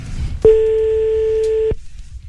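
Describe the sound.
Telephone ringing tone on an outgoing call: a single loud, steady electronic tone lasting just over a second, with a low rumble before and after.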